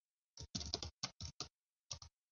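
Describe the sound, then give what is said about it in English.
Quiet typing on a computer keyboard, a quick irregular run of keystrokes in short clusters separated by brief pauses. “You know what? I'm going to type that in.”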